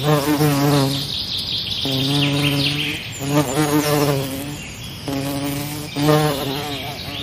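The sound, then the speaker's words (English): Buzzing insects such as flies in Australia drone in several repeated bursts, each a nasal, harmonic hum with whining overtones, steady and fairly loud with no talk. “Why would you bring me to such a place? There are bugs everywhere.”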